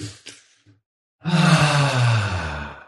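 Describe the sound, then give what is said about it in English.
A deep breath taken to clear the mind: a long, breathy exhale with a voiced, sigh-like quality lasting over a second, after a short faint sound and a brief silence. “So let's take a deep breath to clear our minds.”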